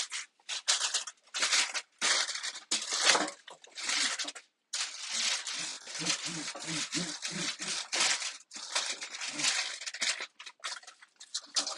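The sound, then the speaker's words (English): Kitchen foil being crinkled and smoothed onto a pan, heard as many dense, crackling rustles in quick irregular bursts that continue almost without a break, with brief pauses between some of them. “matter which direction you put the foil on the pan? A shiny side up, shiny side down situation?”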